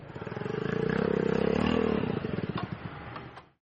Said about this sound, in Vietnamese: Vì lúc đó có đến 4 chiếc xe gắn máy đời mới chạy đến trước quán.